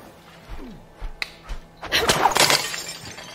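A slingshot shot shatters two pot targets at once: a few soft thuds and a click come before a loud, ragged burst of breaking pieces that rattles briefly and then fades.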